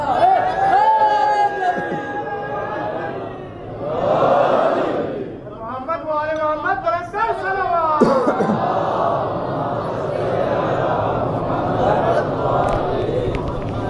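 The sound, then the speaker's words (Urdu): Crowd chanting a slogan in unison at a religious lecture, loud massed voices swelling in several surges before settling into a sustained roar. “جی تھوڑا سا اونچا بولیے اور ایک نعرہ بھی لگا دیجیے.”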